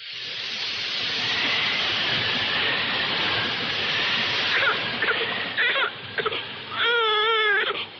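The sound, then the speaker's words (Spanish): A week-old baby girl cries in loud, sustained, strained wails that run without pause, turning more tonal and wavering toward the end. “¿Qué le pasa a la niña? Está bien. Ahora dejará de llorar.”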